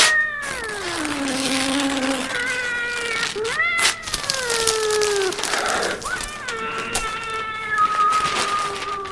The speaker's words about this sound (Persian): حالا این صدای چی بود که شما پخش کردین؟ صدای گربه و کاغذ پاره کردن و اینا چی بود دیگه؟